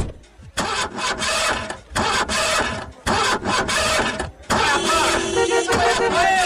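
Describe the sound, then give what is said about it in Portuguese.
A convertible 12-cylinder sports car engine of nearly 300 horsepower revs loudly in a few strong bursts separated by brief gaps, the last burst sustained and rising in intensity. “é conversível, tem bancos de couro 12 cilindros e quase 300 cavalos. Vai de 0 a 100 em menos de 6 segundos. Aí eu não acredito, você tem uma igualzinha do Magnum. Ai, meu Deus, eu sempre quis andar numa máquina dessas.”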